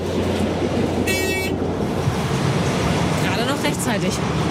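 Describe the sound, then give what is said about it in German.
A loud, steady rumbling drone comes from a ferry crossing the Walchsee in fine weather, with a brief high tonal whine partway through and voices talking over it. “Bisschen laut hier. Ja, wo sind wir denn? Wir sind auf der Fähre und fahren über die Walchsee rüber. Bei herrlichstem Wetter.”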